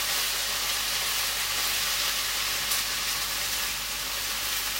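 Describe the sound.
Vegetables, bean sprouts and thinly cut carrot, stir-fry in a pan with a continuous, loud sizzling hiss that stays level and unbroken throughout, with no voices.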